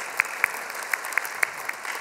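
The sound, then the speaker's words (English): Audience applause welcoming guests to a study gathering, with steady hand clapping and sharp individual claps standing out at a fairly regular pace. “So if you would, let them hear you. Put your hands together. Welcome them into our time of study here today.”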